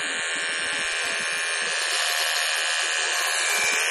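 Electric hair clippers buzz steadily as hair is shaved off a head. The tone is loud and continuous for the whole four seconds with no pauses.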